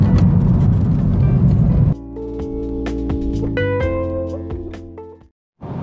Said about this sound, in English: Excuse the background sound, I'm driving